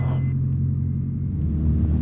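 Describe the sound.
Light aircraft engine at full throttle during takeoff from runway 28 on a mail route in Africa, a dense, steady, loud droning rumble that holds evenly throughout with no voices over it.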